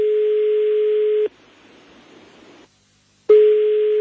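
Telephone tone signalling an incoming call: a steady, loud single-pitched tone held for over a second, then a gap of faint hiss and silence before the tone starts again.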